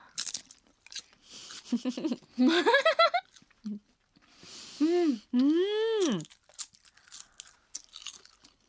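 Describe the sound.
Crisp crunching as a crunchy bonito-flake (okaka) snack is bitten and chewed, with several short, sharp bursts, broken up by loud voiced hums and light laughter.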